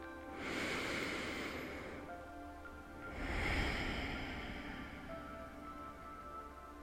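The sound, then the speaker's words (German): A deep breath drawn into the belly during a guided relaxation exercise. Two long, airy breath sounds, each swelling and fading over a couple of seconds, soft and alone. “Und dann nimm noch einen tiefen Atemzug in deinen Bauchraum.”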